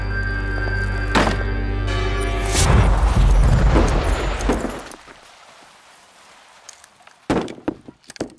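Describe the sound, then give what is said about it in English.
Wooden floorboards splintering as a whole building collapses: a loud, deep rumbling roar with crashing and cracking that builds for several seconds, then fades to a low hush, followed by a few heavy thuds. “Oh no, this whole place is going down. Hurry. Draw. Circle. The floorboards are starting to splinter.”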